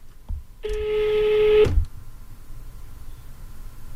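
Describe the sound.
A telephone call goes through with a single steady ring tone lasting about a second. It cuts off with a click, and faint background noise follows.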